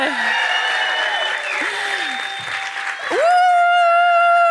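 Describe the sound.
Audience applause greets guests walking onto a stage, a loud, steady wash of clapping with sustained tonal sounds over it that swells louder near the end.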